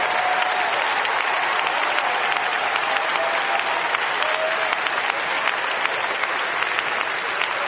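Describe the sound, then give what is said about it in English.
Congregation applause during a church service: dense, steady clapping that fills the whole stretch at an even, fairly loud level, with no voices heard. “Go ahead, give the Lord a big round of applause.”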